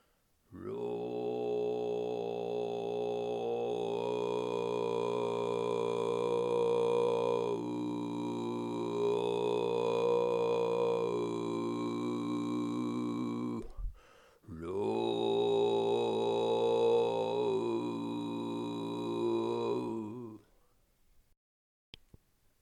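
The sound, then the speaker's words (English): A voice does overtone singing of low bass harmonics with closed lips, holding a deep, buzzing drone layered with shifting whistle-like overtones. Two long held tones are separated by a brief breath-like gap. “Once you start getting comfortable in producing the basic overtones, you may want to try producing the lower bass harmonics, and they sound something like this.”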